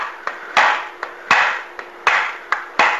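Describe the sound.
Sharp tapping on a stuck part to loosen it: eight hits at a steady rhythm, alternating lighter and heavier strikes, each heavier blow ringing briefly. The hits are loud and heard alone, with no talk.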